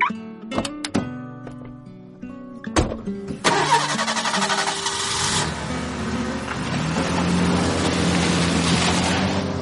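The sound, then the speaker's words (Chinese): A car engine starts amid congested city-street traffic at rush hour. A few sharp clicks come first, then the engine fires and settles into a loud, steady running hum that continues to the end. “马路上的车流变得拥挤，两个人的车没过多久就被堵在了路口。”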